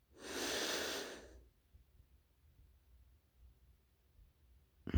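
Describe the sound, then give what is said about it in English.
A single deep breath during a guided relaxation exercise: one long, airy rush of breathing that lasts just over a second, followed by near silence. “Let go of the tension. Take a deep breath in.”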